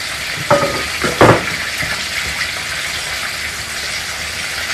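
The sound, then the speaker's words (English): Heavy cream is stirred into potatoes bit by bit. Wet, scraping stirring sounds give a few louder clunks near the start over a steady hiss-like background, with no talking. “essentially you're going to take just a little bit of your cream at a time, pour it in the potatoes, and stir.”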